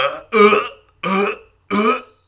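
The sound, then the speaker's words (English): A voice imitates belching while running during a beer mile race: three loud, rough, gurgling belch-like bursts in an even rhythm, separated by short silences. “I had a period at the beginning of my second lap where I was running and belching. Yeah. And I could tell that my belch was 4 steps long because it was like,”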